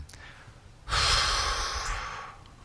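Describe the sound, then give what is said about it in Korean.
One long, breathy exhalation is given as a breathing demonstration. It follows a quiet lead-in and begins suddenly as a loud, airy rush, holds for about a second, then gradually fades out, with no talking. “이렇게 내쉬고, 내쉬면 들이마신 호흡은 의식을 할 필요가 없어요.”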